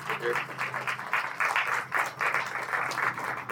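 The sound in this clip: Applause welcoming Jerry Horine as the new pastor at First Baptist, brisk clapping in uneven surges with voices talking over it.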